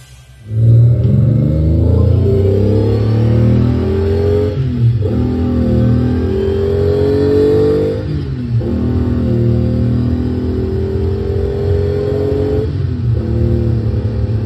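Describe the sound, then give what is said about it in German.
A car engine revs hard under heavy acceleration, a loud, deep, sustained roar whose pitch climbs in several stretches, each broken by a brief dip, with no voices. “Bei so einer Geräuschkulisse kann man davon ausgehen, dass es sich hier um keine gewöhnliche Autofahrt handelt. Hier wird nicht einfach von A nach B gefahren. Hier geht es um PS,”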